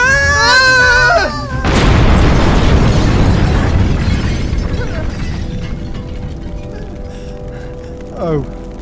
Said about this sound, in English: Oh no, the circuit boards! Oh, it's on fire! Get out! Quickly! Get out! It's gonna blow!